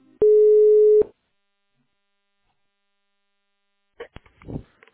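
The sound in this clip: A telephone line tone while a call is transferred to an accounting department: one steady, loud electronic tone lasting under a second, then silence and a few faint clicks and rustles near the end.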